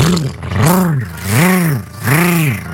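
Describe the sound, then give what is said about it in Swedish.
A human voice imitates a lawnmower engine with loud, rhythmic droning hums. Each hum swells up and falls back in pitch, repeating in regular pulses like a labouring motor. “Nu ska jag ge mig i kast med att härma min gräsklippare.”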